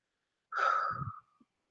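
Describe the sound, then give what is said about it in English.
A person takes one deep breath, a soft airy rush of air lasting under a second, faint and with no talk around it. “Ooh, take a breath.”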